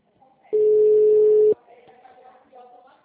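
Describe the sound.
A single steady telephone tone sounds while a call is dialed: one even, unbroken beep lasting about a second, with faint voices murmuring softly before and after it.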